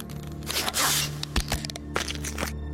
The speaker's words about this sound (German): Man presst es an die Kopfhaut und drückt diesen Knopf hier. Nein, nein, bitte doch! Hörst du das, Ben? Das ist die Justierung. Dauert etwa 5 Sekunden.